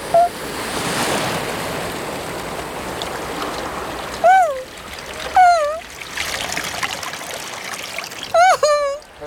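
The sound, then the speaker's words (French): Big sea waves surge and splash onto a shore as a character paddles in the shallows, a steady rushing wash throughout, with a few short vocal whoops rising over it. “Ouh ! Attention, Doudou ! Ouh ! Voilà une grosse vague.”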